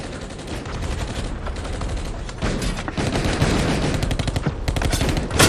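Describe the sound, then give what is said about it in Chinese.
Machine gun fire rattles in dense, rapid bursts, loud and nearly continuous, with sharp overlapping reports that grow heavier toward the end. “拿机枪扫他！”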